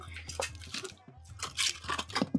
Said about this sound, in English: Got a little pot here with the spice in. Anton doesn't know what it is and he looks a little bit apprehensive, but also quite eager to get going. So I've covered it up with some foil. So if you take the top off.